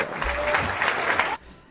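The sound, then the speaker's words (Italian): A short burst of applause on a live radio special presenting a new album; dense, even clapping that cuts off abruptly near the end, leaving only a faint fading tail. “Si sentono gli applausi? Sì, si sente.”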